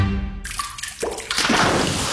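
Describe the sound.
Water dripping from a plumbing leak, heard as a few soft drips over a steady, watery hiss.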